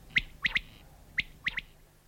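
Birdsong recorded in clover fields in Luga district: six short, high chirps in two quick groups of three, fairly faint and alone.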